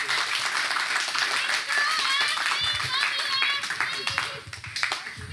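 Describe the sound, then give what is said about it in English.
Audience applause for students after a panel at a church gathering, a steady clapping wash running throughout while a voice talks loudly over it, the clapping thinning toward the end. “Come on, one more time. Big round of applause for all of our students.”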